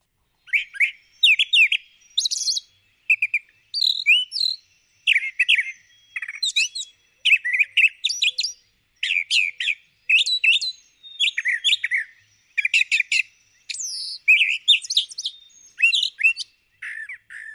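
Bird song made of short, high chirping and whistled phrases, most of them given twice in a row, repeating in many quick bursts with brief gaps, clear and alone with no talk.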